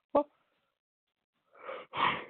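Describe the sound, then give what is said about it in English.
A single short, sharp human sneeze, fairly quiet, followed after a pause by a couple of brief breathy sounds. “Wait a minute, I sneezed.”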